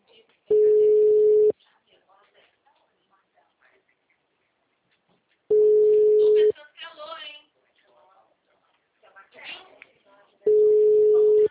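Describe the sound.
Telephone ringing with no answer: three long, steady tone bursts of even pitch, each about a second long and spaced roughly five seconds apart, with voices talking quietly in the gaps.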